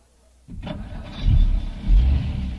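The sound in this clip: A car engine starts up and runs as a couple drives home on a windy night. A sudden onset gives way to a low, steady rumble that swells louder twice as the car gets under way.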